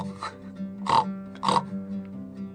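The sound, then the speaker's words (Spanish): Pig grunts from a pig shut inside a suitcase: two loud, rough grunts close together and a fainter one before them, with a steady low drone underneath. “el chancho seguía en la valija, pero esperaba por salir.”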